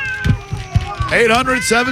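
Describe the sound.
A cat meows, one the owner jokingly threatens with a bath, giving a couple of drawn-out calls that rise and fall in pitch, following low vocal sounds at the start.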